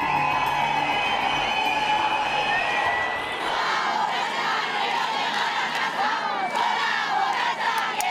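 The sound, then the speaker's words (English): Crowds at a street protest in Spain over a court's not-guilty verdict in the San Fermines rape case shout and chant in a loud, sustained roar. Sharp cries cut above the mass of voices throughout. “The sound there of one of the many protests in Spain in recent days”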